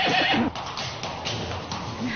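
Horses whinny and neigh in loud, harsh bursts, with a strong call at the start and more neighing over a steady noisy bed for the rest of the short clip.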